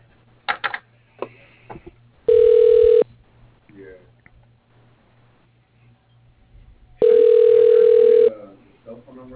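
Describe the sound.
Telephone ringing tone heard during a call transfer: two long, steady electronic tones, each about a second or more, separated by a stretch of quieter background with brief talk around them.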